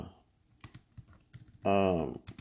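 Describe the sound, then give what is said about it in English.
Computer keyboard typing as a search is entered: scattered light, crisp key clicks at an uneven pace, interrupted by a short spoken word before more tapping. “I'm just going to type in”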